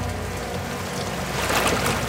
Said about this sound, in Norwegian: så kommer politibåten, den røde gummibåten, kjørende. Det en solid ribb med kraftig motor.